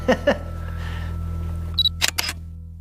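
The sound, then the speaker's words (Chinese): A camera shutter fires as a photo is taken: a brief high electronic beep comes first, then a few sharp, quick mechanical clicks over a steady low hum. “我拍照”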